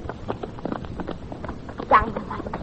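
Horses' hooves clattering as riders set off, a quick, uneven run of many clip-clop beats over a noisy background, with one louder burst near the end.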